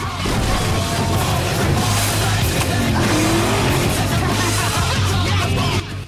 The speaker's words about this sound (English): The Chevy's rear windscreen is splattered with blue flush as the two cars race along the dusty road, a large oil pump in the foreground.